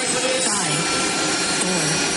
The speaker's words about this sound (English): Flight 527, runway 8 kilo, you're clear for takeoff. Let's go.